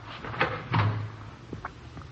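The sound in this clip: A door being opened: a sharp knock-like bump, then a louder low thud with a brief rattle, followed by a couple of faint clicks, all heard alone over a low background hum.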